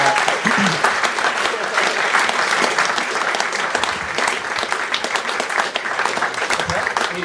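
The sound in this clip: An audience applauding to welcome a guest speaker on stage, a loud, dense and continuous burst of clapping that keeps an even level from start to finish.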